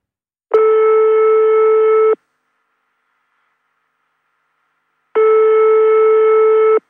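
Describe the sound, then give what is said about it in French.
A telephone ringing after a number is dialled: two steady, loud ring tones, each lasting under two seconds, separated by a few seconds of silence. “On compose le numéro et on fait sonner.”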